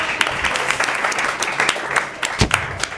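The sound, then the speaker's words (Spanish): Applause from the audience at a literary panel in Buenos Aires, many hands clapping in a thick, continuous roar with scattered sharper individual claps standing out near the end. “¡Bravo! ¡Aplausos!”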